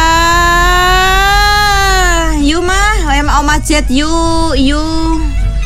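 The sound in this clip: A baby crying: a long, sustained high wail, then several shorter cries that bend up and down in pitch, loud over a steady low background hum.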